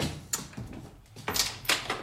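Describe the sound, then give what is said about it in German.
A stiff door being forced open: a few quiet, scraping and knocking bursts separated by short pauses, with no talk. “die Tür geht ja immer so schwer auf”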